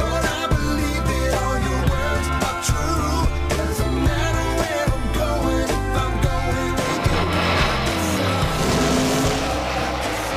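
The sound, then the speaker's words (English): Race car sound effects in NASCAR style: a loud, dense engine roar with shifting tones and tire squeal that runs without a break and carries no talk. “We have to add the NASCAR sound effects”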